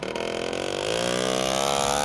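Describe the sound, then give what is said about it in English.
A motorbike engine runs outside in a poor working-class neighbourhood of Seville, a buzzing idle whose pitch climbs partway through into a louder, sustained rev, with no talk. “And outside is Rafael's motorbike.”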